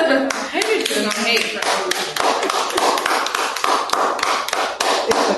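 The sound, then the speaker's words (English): A group of friends claps and applauds one another's answers during a chat. Many sharp, irregular hand claps come one after another, with voices among them at the start. “I just love how y'all clap and applaud each other's answers.”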